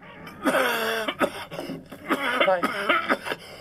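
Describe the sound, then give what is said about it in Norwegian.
A person coughs and clears their throat in a few harsh, strained bursts. “Noen som har fått noe i halsen de ikke likte.”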